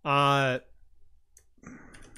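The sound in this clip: Typing on a computer keyboard: a quick run of keystroke clicks fills the second half, after a short voiced sound and a quiet pause.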